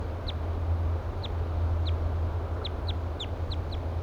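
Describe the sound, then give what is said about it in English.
Flight calls of a wild bird, a series of many short, high chirps at an irregular rhythm over a steady low hum and constant background noise. “Fluffing its feathers. Giving louder flight calls now.”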